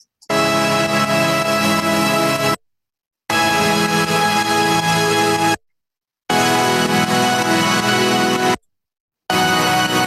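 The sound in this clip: Layered sawtooth synth chords, bounced out from a separate project, sound as three sustained, bright, buzzy blocks with short silences between. A fourth block begins at the end.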